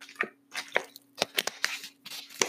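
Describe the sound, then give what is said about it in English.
Grabbing and opening a water bottle at a desk: a quick run of crinkly clicks, squishes and small cracks, crisp and close, with no talking. “You can hear me grab my water, open it”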